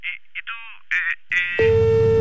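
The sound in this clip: Telephone call being hung up: a few short voice-like bursts, then an abrupt switch to a steady electronic phone tone that holds, unbroken, to the end.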